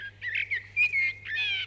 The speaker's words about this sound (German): Eine Amsel.